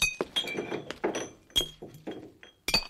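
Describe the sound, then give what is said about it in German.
Clinking of an empty green glass bottle: a run of bright, ringing glassy taps mixed with dull knocks, irregularly spaced and fairly loud, with no other sound. “Ah ja, da ist die grüne Flasche mit dem Erinnerungstrank. Oh, nein, da ist ja gar nichts mehr drin.”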